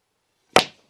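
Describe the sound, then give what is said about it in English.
A pool shot on the black ball gives a single sharp, crisp click of balls striking, a brief crack that fades quickly into silence. “He's got the red. Oh, not the angle I'd have gone for on the black, but it might work.”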